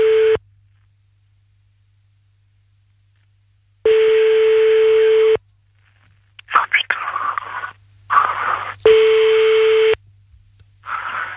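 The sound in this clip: Ringback tone of an outgoing telephone call: a few steady, mid-pitched beeps, each lasting over a second and separated by long silent gaps, with soft whispering in the pauses between rings.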